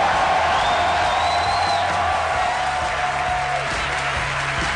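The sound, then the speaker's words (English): Applause and some cheering from a theater crowd at a live comedy show at 92Y in New York City: a continuous, even wash of clapping and crowd noise that neither swells nor fades. “I thought that was getting a big applause.”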